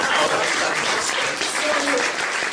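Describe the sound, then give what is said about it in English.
Audience applause during an interview, a steady, dense wash of clapping that holds at an even loudness for the whole clip. “Round of applause, I think. Let's keep that energy going.”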